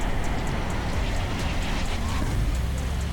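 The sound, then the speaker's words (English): Trucks moving and coming to a stop, a steady low rumble of engines and road noise that holds at an even level throughout. “Here we go, trucks are moving. Go. Okay, starting to stop. Okay, come on, come on, come on. Just stop.”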